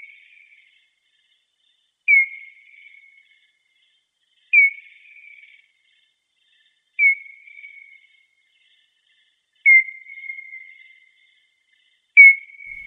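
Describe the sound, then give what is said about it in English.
Echolocation calls of a Leisler's bat, slowed to a tenth of normal speed: a slow series of evenly spaced chirps about every two and a half seconds. Each is a sharp, high, downward-sweeping onset that settles into a brief steady tone and fades, with silence between. “So here is the sound of a Leisler's bat. Now, this, unlike our initial sound from space, this is slowed down. It's like a tenth of the speed.”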